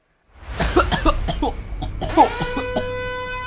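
Coughing from someone who has just inhaled a floating black fuzz that is caught in the throat: a few harsh, raspy coughs in quick bursts, then one more forceful cough after a short pause, with a faint lingering tone beneath.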